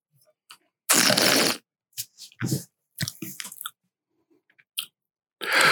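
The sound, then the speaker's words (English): A person tasting wine: a long, noisy slurp, then several short, wet swishing and smacking sounds separated by brief pauses. “let me taste.”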